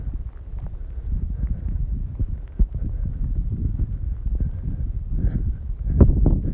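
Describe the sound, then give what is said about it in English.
Wind and rain on an outdoor walk: a steady, low, rumbling buffet of wind with a few sharper knocks, continuing without speech. “Feel alive with rainwater coming down, the wind in your face”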